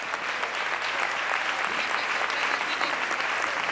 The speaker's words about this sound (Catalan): reconeixement en forma d'aplaudiments d'aquesta sala d'actes plena de gom a gom.